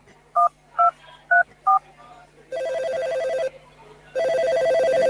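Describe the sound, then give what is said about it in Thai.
Four crisp telephone keypad tones dial a four-digit hotline number in an even rhythm. Two long, loud electronic ringing tones follow, separated by a short gap. “พ่อโทรแจ้งสายด่วนปปช.1205 งั้นแม่ก็โทรเลยแล้วกันนะ”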